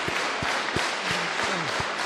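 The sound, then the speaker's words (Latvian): An audience applauds a priest during a feast-day Mass for St. Meinard in a church in Ikšķile. Dense, steady clapping fills the whole stretch, with a few soft low thumps within it. “Arī visi draudz aplaudē un sveic priesteri.”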